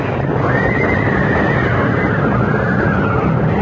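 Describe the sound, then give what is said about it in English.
Frightened carriage horses, the panicked lead horses of a coach, whinny in a long, high, wavering neigh that holds steady over a dense, loud rumbling background. “First he rushed to calm the terrified lead horses so that they in return stilled the panic in their followers.”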